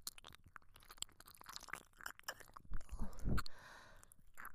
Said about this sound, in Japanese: 次は私めが耳舐めをさせていただきます。